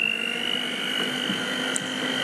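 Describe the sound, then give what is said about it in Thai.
An electric mixer beating cake batter at speed one: a steady, even motor hum with a thin high whine running through it, holding constant pitch from start to finish. “จะมาปั่น ใช้เครื่องตีนะอย่าลืมนะคะอย่างที่บอกไว้วางลงก่อนนะวางลงก่อนแล้วก็เปิดสปีดที่1”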